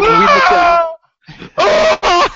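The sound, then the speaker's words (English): A death scream from the video game Impossible Mission 2: a loud, strained vocal cry with a drooping pitch lasting nearly a second, then a brief silence and a few short, loud vocal bursts. “Impossible Mission 2 had that really great scream. I don't know if you guys have played that. Yeah. Every time you die, the guy”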